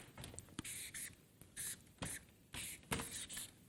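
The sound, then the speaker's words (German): Writing in the middle of a board: a series of short, scratchy strokes comes in irregular bursts separated by brief pauses, faint and without talk. “und ich schreibe es jetzt mal in die Mitte,”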